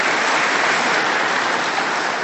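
Dense, steady applause from an audience at an official address on regional dairy farming. The clapping stays at an even, loud level throughout, with no voices standing out.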